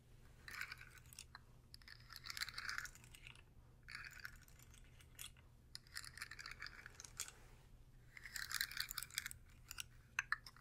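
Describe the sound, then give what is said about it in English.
Quiet ASMR handling of a sensory slug toy: many faint clicky, crackling bursts come in uneven clusters with short pauses between them, and no one speaks. “What is this? You should know. Sensory slug. That's right. This is a sensory slug.”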